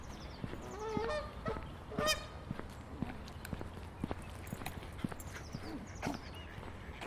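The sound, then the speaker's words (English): Canada geese honk in a few faint, nasal, harmonic calls, two standing out above a bed of scattered clicks and soft rustling, with no talking. “I was keeping out the road of the Canada geese”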